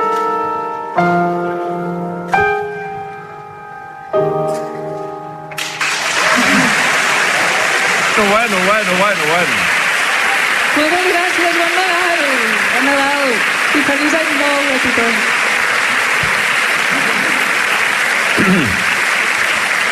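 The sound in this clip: A crowd bursts into loud, sustained applause and cheering, with voices shouting over the clapping. A few ringing, sustained tonal notes sound just before it.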